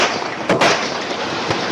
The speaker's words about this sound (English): Dashboard cam video captured Grubert demanding LeVar Jones' driver's license, and then, when Jones reached into his SUV for his wallet, opening fire.